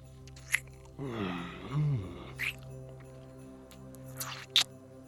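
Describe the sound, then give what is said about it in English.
Wet, smacking kiss sounds from a deep kiss: a few sharp, moist smacks spaced apart, with a soft low murmuring hum between them, faint and close. “Then I kiss you deeply.”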